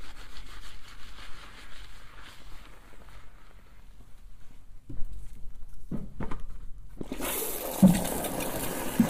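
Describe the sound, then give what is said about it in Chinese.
Water rinsing hair during a hair wash before a haircut: soft rubbing and scrubbing at first, then a strong, steady hissing rush of running water takes over near the end. “冲水了。洗太久，洗太久对头皮不好的。”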